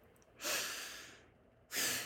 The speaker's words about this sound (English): I'm going to ask you to take a breath.